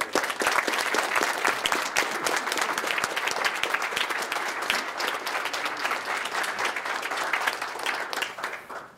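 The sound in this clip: Warm audience applause at a Notre Dame event welcoming Jesuit priest Father Paul Janowiak in 2016, a loud, continuous stretch of many hands clapping that holds steady for about nine seconds and tapers off at the end.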